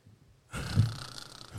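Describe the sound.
A man imitates a man snoring with his voice, producing one rough, low, growling snore that lasts about a second and trails off with a faint snort.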